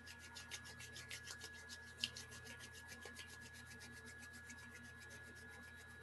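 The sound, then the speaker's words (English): Palms rub together, palm on palm, to build heat through friction. The faint, steady rhythmic swishing strokes are broken by one brief click partway through. “draw your hands here in front of you, bring them together, palm on palm, and rub them together to generate some heat, some friction.”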